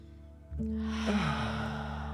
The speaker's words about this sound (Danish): Vi, vi, vi trækker vejret. vi trækker vejret, ja. Okay. Og en gang til.